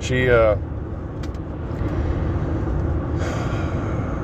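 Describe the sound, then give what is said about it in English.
Steady low engine and road rumble fills the interior of a moving car. A person's voice briefly sounds at the start, then the constant drone continues alone. “In case you didn't know, I'm driving. This is when I do my podcast, is when I'm driving.”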